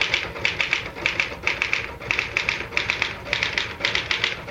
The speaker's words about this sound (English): I typed for a few minutes.